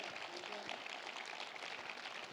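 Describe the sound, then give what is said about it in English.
A church audience clapping their hands, a dense, steady patter of claps with voices mixed through it, holding at an even level the whole time. “Somebody clap your hands like he's awesome. Give him a big clap like you're real happy.”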